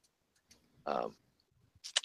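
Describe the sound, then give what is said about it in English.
A button being clicked gives a couple of sharp, quick clicks near the end, following a brief voice. “I guess I should click the button.”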